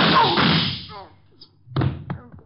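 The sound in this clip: A muffled gunshot fired through a desk lands as a heavy, booming thud that fades slowly. Brief voice fragments follow, then another solid thump.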